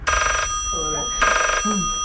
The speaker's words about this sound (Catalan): Sherlock Holmes rep una trucada que li canviarà la vida.